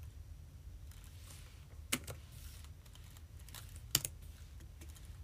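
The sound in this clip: Typing on a computer keyboard: soft, steady key taps run quietly throughout, with two sharper, louder clicks standing out, and no talking.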